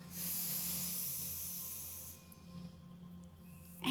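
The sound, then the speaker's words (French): During a guided breathing exercise, a person breathes in deeply. The long, airy hiss of the inhale lasts about two seconds and then fades over a faint low hum, ending in a brief click. “Et inspirez.”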